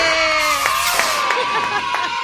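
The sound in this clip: Cheering and crowd noise from an audience celebrating a contestant who has just won a gas-refill prize. A bright, busy burst of voices carries a few sharp, regular accents throughout.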